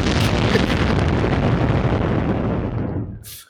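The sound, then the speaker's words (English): A bomb-drop sound effect: a loud, rumbling explosion with a dense low roar that holds for about three seconds, then fades out quickly, with no talk over it. “Can I get another bomb drop for that, please?”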